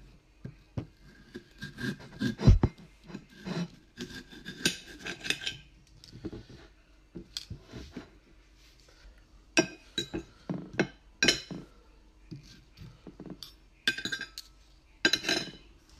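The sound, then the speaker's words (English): Cutlery clinks and taps against dishes as people eat on a TV cooking show with no music playing. Many light, irregular chinks come in scattered clusters, with no talk. “And this is what eating without music sounds like.”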